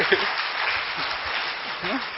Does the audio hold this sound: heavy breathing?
no